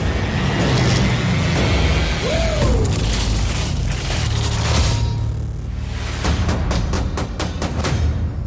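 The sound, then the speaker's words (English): Action movie trailer audio from The Expendables 2, with heavy booming impacts, crashes and roaring vehicles over a loud, dense score. A rapid series of sharp hits comes toward the end. “All right, so that's the trailer for The Expendables”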